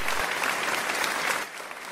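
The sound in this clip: Applause welcoming a guest on a radio talk show: a brisk burst of clapping that holds steady for most of two seconds, then softens near the end.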